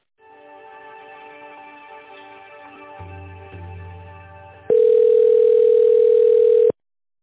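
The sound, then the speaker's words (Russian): Telephone line tones play while a call is transferred to another person: soft, sustained electronic tones hum for several seconds, then a loud, steady single-pitched tone holds for about two seconds before cutting off abruptly. “давайте я лучше на Екатерину Алексеевну переключу вас”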